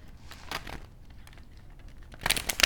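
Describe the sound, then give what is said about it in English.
A tarot card pulled from the deck gives a few short papery crinkles and snaps. The rustle is faint at first and turns louder and busier at the end. “I'm going to pull a clarifying card for”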